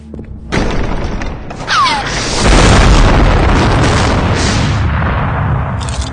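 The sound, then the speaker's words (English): A massive bomb explosion bursts in with a deep, booming roar that swells and rumbles for several seconds. A brief falling whistle cuts through the blast early on. “they went on to find an entirely new way of blowing themselves up.”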